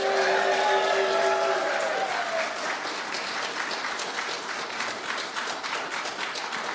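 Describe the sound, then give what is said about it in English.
An audience at a live radio panel show in a college chapel house in Oneonta, New York applauds with thick, steady clapping that continues evenly to the end. “That's how audiences sound in Oneonta. How cool is that?”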